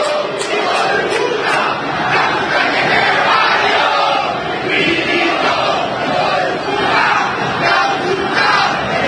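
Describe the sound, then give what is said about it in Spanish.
A large football crowd roars in anger and frustration at a match their team has just lost. The dense, continuous shouting stays loud and steady throughout, with no clear pauses. “Escuchen el público de Racing.”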